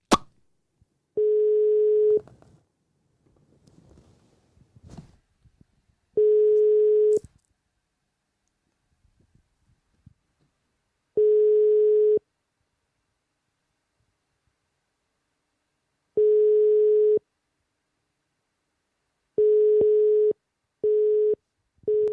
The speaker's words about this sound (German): Dadam, besetzt hinten, das heißt, sie wurden weggedrückt. Ja, so keine Ahnung, es hat ja normal getutet und erst gegen Ende schon dann besetzt.